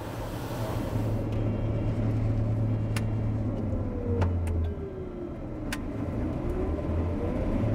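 Harvester engine running during harvest, coming back to full speed after turning slower than it should. A steady low drone carries a whine that dips and then climbs, with a few sharp clicks over it.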